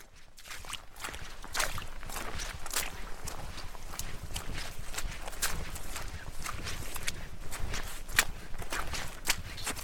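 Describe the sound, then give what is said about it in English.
Hiking boots squelch through wet mud on a hillside track along a Glencoe mountain trail, a long run of soft, steady footsteps repeating without pause. “The ground is wet and my boots squelch as I find my way across the mud.”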